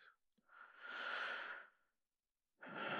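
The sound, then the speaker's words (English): Slow, soft human breathing: one long, airy breath swells and fades, a quiet pause follows, then the next breath begins, faint and slightly wheezy. “Feel how my chest heaves and sinks with every breath, just like yours.”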